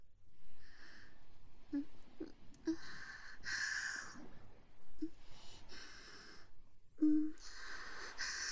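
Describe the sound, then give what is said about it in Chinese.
Rapid, heavy breathing comes in quick, breathy huffs mixed with soft wheezy breaths. The rhythm is uneven and the sound fairly faint, with no other sounds around it. “哥哥你的呼吸好急促啊，呼出的热气打在人家的乳房上，好痒啊。”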